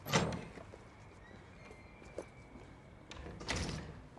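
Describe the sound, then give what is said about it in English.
A door is opened in a studio building. Faint knocks and rattles come near the start, a soft hiss fills the middle, and a louder rattling burst follows near the end. “She walks into an empty area, then opens a nearby door and enters.”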